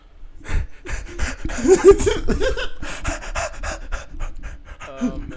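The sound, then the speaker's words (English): Heavy panting breaths are pushed straight into a close microphone, many rapid, loud, rough gasps following one after another in an uneven rhythm across the whole span, with no clear speech. “That's the fucking genuine breath right there.”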